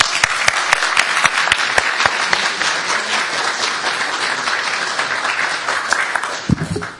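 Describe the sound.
An audience applauds to welcome a speaker with steady, dense clapping that holds evenly for several seconds before cutting off near the end.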